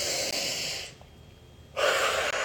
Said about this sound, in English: I'm going to start with a breath.